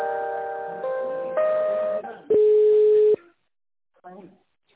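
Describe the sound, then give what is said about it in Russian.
Telephone tones while a call is transferred: a run of stepped, chord-like tones changes pitch several times, then a single steady tone holds for under a second, and a brief voice follows after a short silence. “Да, сейчас я вас соединю, секунду.”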